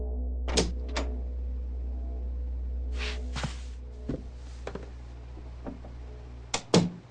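A door handle pressed and a cabin door opening, heard as a series of sharp clicks and clunks with a soft hissing slide, over a steady low hum.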